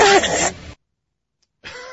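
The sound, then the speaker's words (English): A man's sneeze erupts as a loud, harsh burst with a strained, squawking voiced quality. Silence follows, then a shorter burst of noise near the end. “if I didn't give you any of the background, and I merely played that sound for you, I don't think your guess would be Lou Holtz sneeze.”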